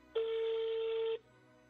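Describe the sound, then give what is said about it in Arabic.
A landline telephone receiver picked up to dial a number: a single steady electronic tone lasting about a second, clear and alone, then quiet. “وقت رفعت السماعة واتصلت على الرقم الموحد الموجود في موقع الهيئة.”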